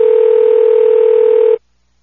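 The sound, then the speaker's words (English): A telephone dial tone holds one steady, loud pitch for about a second and a half, then cuts off abruptly into silence. “Let me see if we can just hang up and call back and get the casino lady back”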